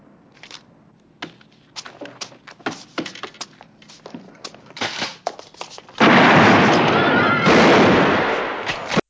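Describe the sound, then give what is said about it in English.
Shotgun blast and shootout inside a bank branch in the 1974 series Police Woman: many sharp, loud shots in irregular bursts, then a long, heavy roaring blast that slowly fades. “She basically shoots her with a shotgun, which starts a bit of a shootout in the branch.”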